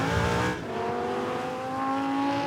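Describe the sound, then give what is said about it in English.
Engine of a Lamborghini Huracan drift car with a 5.2-liter V10, driven on a track: a loud, steady, harmonically rich drone, opening with a brief harsh burst of noise before settling into a sustained tone that edges slightly higher. “The drifting Lamborghini was based around the Lamborghini Huracan standard 5.2 liter V10 engine.”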